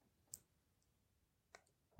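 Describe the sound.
A few faint, sharp clicks of a pause button being pressed stand out from near silence, each short and isolated.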